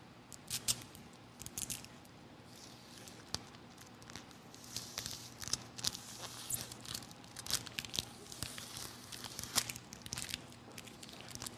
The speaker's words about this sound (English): Can we take these two pieces of tape and get them apart?